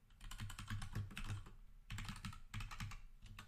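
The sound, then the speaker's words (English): Quick keystrokes on a computer keyboard as a route search is typed, many fast clicks coming in short bursts with a brief pause in the middle, quiet and alone. “Let me just type in Lubbock to Dallas.”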